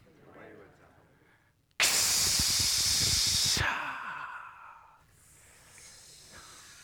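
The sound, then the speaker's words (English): A single long, forceful exhaled breath at a community gathering, heard as a loud, bright hiss of air lasting about two seconds. It cuts off abruptly and leaves faint, quieter tones after it. “The long breath. Ooh, the long breath. But give thanks to the breath of life.”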